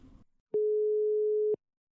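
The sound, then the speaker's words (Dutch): A telephone ringing tone plays while a call is placed: a single steady, mid-pitched tone lasting about a second, clean and alone after a brief murmur at the start. “Ik ga hem bellen.”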